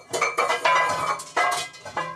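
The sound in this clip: Metal cookware clanks as a second cooking pan is taken up in a kitchen during preparation of a hollandaise-type sauce, with a few sharp clattering knocks and ringing scrapes spread unevenly across the moment.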